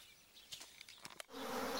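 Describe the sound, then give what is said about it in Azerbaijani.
Honeybees that have left their hive buzz as they gather around a queen on an iron pipe of a grape arbor. A faint, uneven hum with brief louder passes thickens into a denser, steady drone near the end. “Yeşikdən çıxan balla arılar üzüm çardağındakı dəmir boruda bir ana arının başına toplaşır.”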